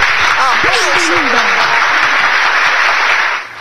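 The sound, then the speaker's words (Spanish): A studio audience applauds loudly and steadily with dense, even clapping, while a voice speaks over it at the start; the clapping cuts off abruptly near the end. “Aplauso, please, aplauso.”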